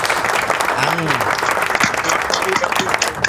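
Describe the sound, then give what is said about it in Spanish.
Applause for guests, dense steady clapping that fills the whole stretch at an even level, with a brief voice-like tone rising and falling partway through. “Un aplauso para ellos, porque de verdad que”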